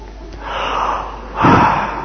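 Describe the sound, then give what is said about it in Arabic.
A person takes a deep breath, heard as two airy swells of breath noise, the second louder and stronger than the first. “ما الذي حدث؟ نفس، أخذت نفسا، هذا النفس نعمة.”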